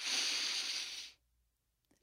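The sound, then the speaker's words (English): A deep inhale closing a guided reading: one long, airy breath drawn in for about a second, a soft broad hiss that cuts off into near silence. “we like to end all these readings with a deep inhale”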